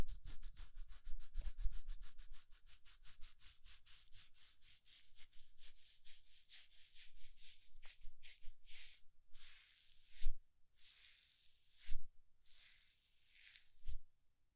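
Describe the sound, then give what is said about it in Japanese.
Rubbing sounds of an ear massage, made of fast, even strokes at first that later slow into broader, soft rubs with a few low thumps in between, with no talk. “その代わり、お耳のマッサージくらいならサービスしてあげる。”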